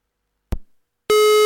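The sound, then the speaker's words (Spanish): Telephone call tone as a call is placed: a single short thump, then a pause before a loud, steady, buzzy tone starts abruptly and holds at an even pitch to the end. “Vamos a llamarla de nuevo. Vamos a probar. A ver si lo conseguimos.”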